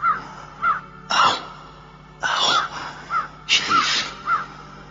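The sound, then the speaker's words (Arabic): A crow at the opening in the roof of a monk's cell caws in a string of harsh, rasping calls, several loud croaks with short pauses between them and no voices. “شايف الغراب داخل من الطاقة اللي في سقف الصومعة؟”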